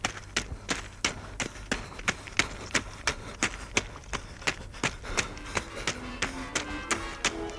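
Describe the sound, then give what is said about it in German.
A man runs along railway tracks with a heavy brake shoe in each hand: many quick, sharp footfalls in a steady, even rhythm, fairly quiet and with nothing else over them. “In jeder Hand einen Hemmschuh läuft er dem brennenden Wagen entgegen. Er läuft mitten auf den Schienen. Seine Lunge keucht.”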